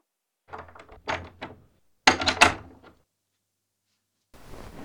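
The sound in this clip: A door is opened: a quick run of small knocks and rattles, then a louder clattering clunk, and after a pause a soft, steady noise.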